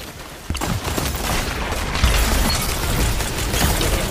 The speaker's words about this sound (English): Dude, this grenade launcher is annoying.